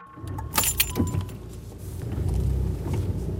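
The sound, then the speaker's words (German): Car driving, a police commander's vehicle heading toward a border crossing. A steady low engine and road rumble runs throughout, with a few bright metallic jangles near the start. “Polizeikommandant Tornakis fährt in Richtung Grenzübergang.”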